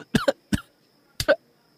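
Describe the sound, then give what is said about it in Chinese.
A person coughs, choking after nearly swallowing a bead. There are a few short, harsh coughs in three quick clusters, fairly faint, with brief silences between them. “他倒吸一口冷气，险些把嘴里的珠子咽进喉咙里，一时呛住，便疯狂地咳嗽起来，呸的吐了出来。”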